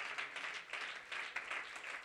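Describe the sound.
Congregation clapping hands during a church service: a dense, steady wash of many hands that pulses gently and stays fairly faint throughout, with no talking.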